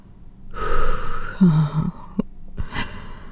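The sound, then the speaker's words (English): Heavy breathing as someone catches their breath: a few loud, ragged gasps and exhalations follow one another, with short breathy snorts toward the end, alone without speech. “give me a second. I need to catch my breath.”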